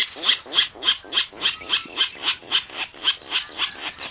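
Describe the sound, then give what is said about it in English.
Virginia rail calling in a freshwater wetland, a steady, evenly spaced series of many raspy mid-to-high pulsed notes, heard alone. “Nearly one quarter of all U.S. birds, such as this Virginia rail,”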